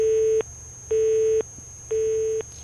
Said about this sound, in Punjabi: ਲਓ ਜੀ ਪਹਿਲੀ ਕਾਲ ਹੋ ਗਈ ਹੈ ਡਿਸਕਨੈਕਟ।